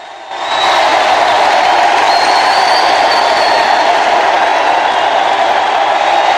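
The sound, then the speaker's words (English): An arena crowd roars in a loud, steady, unbroken wash of noise. It swells quickly at the start and then holds at an even level throughout. “The Duke slowly raises his arms and the crowd calm down.”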